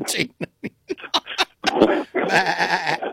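A goat bleats twice in long, wavering, nasal calls after a few short, clipped sounds.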